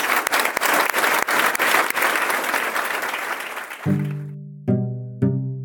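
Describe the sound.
An audience applauds to thank a guest at a public affairs talk, with dense, steady clapping that fades away. It is followed by three sustained musical tones.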